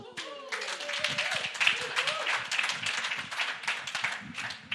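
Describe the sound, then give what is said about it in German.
Audience clapping at a church evening service: a busy run of sharp, uneven claps that carries on for nearly five seconds, with voices calling out over the opening moments. “Nicht zu früh klatschen, ne?”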